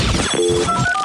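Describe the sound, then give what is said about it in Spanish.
A telephone rings in a short burst of layered electronic tones. “Si el teléfono te suena así...”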